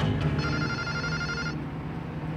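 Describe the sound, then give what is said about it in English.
A telephone ringing in a dark apartment: a single electronic ring burst of about a second with a bright, buzzing tone, set over a low, steady background bed. “The phone in Bud's dark apartment.”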